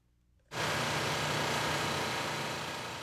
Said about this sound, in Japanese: この会社では40億円を投じて CNF 専用の大規模なプラントを建設して、去年7月稼働を始めました。先ほど聞いていただいたのがその工場内の音です。